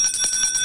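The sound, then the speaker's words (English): A hand bell rung for a feast day gives a brief, bright, metallic jingle of rapid repeated strikes over ringing high overtones, heard alone. “That is the sound of the bell that I like to ring every day on Spirit of the Morning when we have a feast or a solemnity.”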